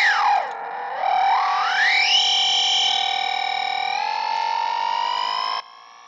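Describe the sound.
Nightmarish synthetic tones from an effects device with turned knobs: a distorted, buzzy tone sweeps down in pitch, then glides back up and settles into a long, steady, harsh drone before cutting off.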